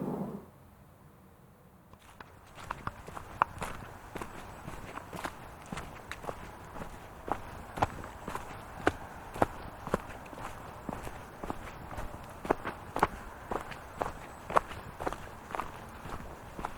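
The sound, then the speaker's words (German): Footsteps of someone walking downhill through a forest in late October make a long, steady run of many crisp steps at an even walking pace. The steps stand out moderately loud over a quiet background. “Ich gehe jetzt mal weiter.”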